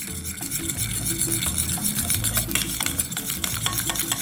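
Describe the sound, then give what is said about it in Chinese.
Crispy frying flour mixed with a little water is stirred into a batter in a container. A continuous, busy scraping and sloshing churns at a steady, fairly loud level with no pauses. “首先我们先在这个容器里面加一点粉浆的这个粉，好，这是酥炸粉。好，然后呢再加一点点的水。 好， 好，搅拌。”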